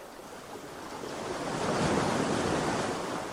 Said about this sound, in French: Ce bruit de l'eau, encore, vous aide et vous accompagne.